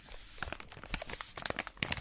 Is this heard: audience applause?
no